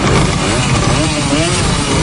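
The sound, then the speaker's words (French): Hundreds of old East German mopeds and motorcycles, Simson, Schwalbe and MZ models, start and run together in a loud, continuous buzzing engine roar that stays dense and unbroken throughout. “Des centaines de vieilles mobilettes et motos est-allemandes, Simson, Schwalbe et autres MZ démarrent.”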